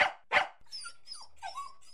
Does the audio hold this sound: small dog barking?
yes